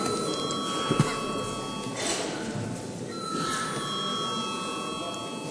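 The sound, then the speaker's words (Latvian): An electric bell rings in a parliament chamber before a vote. It gives a steady, sustained ringing tone over a noisy room, broken by a short pause midway. “lūdzu zvanu.”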